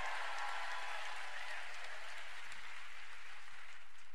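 Audience applause welcoming a guest from Red Warrior Camp at Standing Rock: dense, steady clapping that holds at an even level for about four seconds, with no voices standing out.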